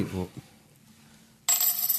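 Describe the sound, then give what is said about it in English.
A metal promotional Fernet Branca coin drops onto a countertop, giving one sharp, bright clatter that rings on with sustained metallic tones after a quiet lead-in. “That is the sound of my Fernet Branca coin hitting the countertop here.”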